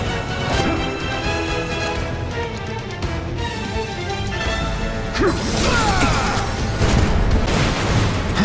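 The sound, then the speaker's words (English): Cloud's Cross Slash limit break, a sword attack striking a Sentinel enemy in a video game. A dense run of swooshing slashes and hard impacts plays over game music, growing louder in the second half. “Cloud's limit break is now ready to be used, and it's called Cross Slash, which damages his foe while making an ominous symbol with his slashes. It hits pretty hard, striking the Sentinel and making X shapes with his sword.”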